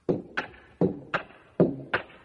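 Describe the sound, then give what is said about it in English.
Footsteps of a man walking across a house floor toward the front door, as a sound effect for a peg-legged duck hunter: six even-paced thuds, alternating heavier low thumps with sharper, lighter knocks. “Here he comes walking across the floor.”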